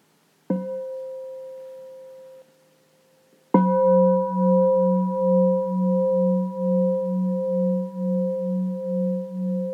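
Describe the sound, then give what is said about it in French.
Meditation bell at a mindfulness retreat, struck twice: a first clear ring that fades out, then a louder strike whose pure tone sustains with a slow, pulsing waver, alone in silence. “Maintenant, on va commencer par écouter les sons de la cloche.”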